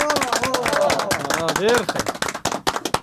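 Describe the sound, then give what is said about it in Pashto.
Audience clapping at a quiz contest after a correct answer: sharp, quick hand claps in an uneven patter, with voices speaking over them. “بالکل سم جواب دی راکل چکچک ورته وای”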